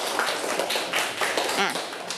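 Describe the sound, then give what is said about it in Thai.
A class of students clapping their hands together in a brief, noisy burst, with voices mixed in among the claps. “เอาปรบมือกันนะ”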